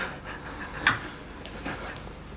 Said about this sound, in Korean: 수연은 화를 가라앉히지 못해 가쁜 숨을 내쉬고